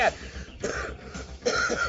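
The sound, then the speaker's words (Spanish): A few harsh, spaced coughs, fairly faint, with no speech. “estos son los estragos de la tos”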